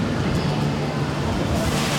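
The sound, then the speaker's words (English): Water rushing into a chamber during a simulated flood at a disaster training center, heard as a dense, steady roar of churning water that runs unbroken from start to finish. “A sudden gush of water floods the chamber.”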